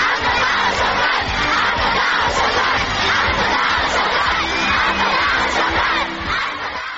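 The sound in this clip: A large crowd shouts and cheers at a government assembly in Turkmenistan, a loud, continuous roar of many voices that holds throughout and eases slightly at the end.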